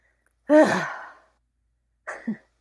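Stressed breathing demonstrated by a person: one voiced, sighing breath lasting under a second, then after a pause a shorter, sharper catch of breath.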